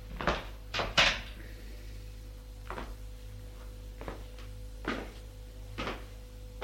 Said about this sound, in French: Va dans mon placard, fouille sous les draps, prend un revolver, l'ouvre, il y a des balles.